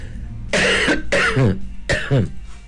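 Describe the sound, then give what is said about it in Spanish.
Coughing from someone with a lingering cough: three loud, harsh coughs in close succession, each with a rough voiced tail, and a short gap before the last. “para comprarme algo para que se me termine esta tos”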